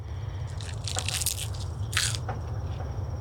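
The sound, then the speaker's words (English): Crisp, crunchy bites into a freshly picked, springy crop, with a few sharp crackling crunches heard alone over a steady low hum. “Like, you could hear how, like, crisp it is when we pick it. Okay, I'm going to give it a little taste now.”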